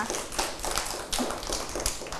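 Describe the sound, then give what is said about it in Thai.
Scattered hand claps for a pupil in a class: uneven, fairly faint claps with small gaps between them, with no voices. “แซนดี้เก่งมากๆเลยปรบมือให้กับพี่แซนดี้หน่อยค่ะ”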